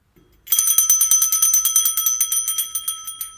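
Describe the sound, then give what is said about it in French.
A postman ringing a doorbell: a rapid, continuous metallic ringing made of many quick, bright strikes, loud and steady for about three seconds. “Le facteur, quant à lui, sonne chez les Michauds.”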